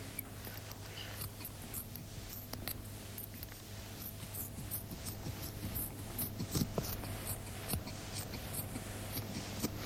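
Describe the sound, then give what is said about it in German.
Surgical scissors and tweezers at work during breast surgery, cutting away superficial tissue layers: many faint, irregular snips and small metallic clicks scattered over a steady low hum. “Jetzt schneide ich die oberflächlichen Gewebeschichten einfach mit der Schere weg. Das ist jetzt das Geräusch der Schere. Und der Pinzette.”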